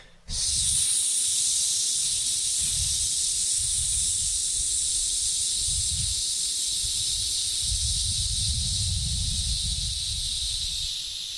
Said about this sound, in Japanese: で、その状態で、スーッと吐きます。